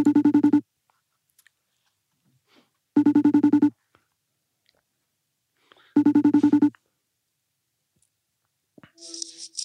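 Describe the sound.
A telephone ringing tone as a phone call is placed: three short buzzy rings of about half a second each, evenly spaced about three seconds apart, with near silence between them and a brief faint noise at the end.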